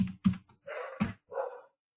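A dog heard in a few loud, separate bursts: short sharp sounds at first, then two longer tonal cries, each followed by silence.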